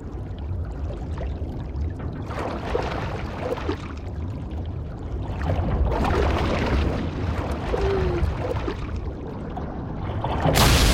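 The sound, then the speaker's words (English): Water rushes through an opened valve into a flooded tank, a dense, continuous churning roar with gurgling, swirling texture that holds steady and then swells louder near the end. “Suddenly, the valve opens and the water carries Dylan and the others through into the next tank.”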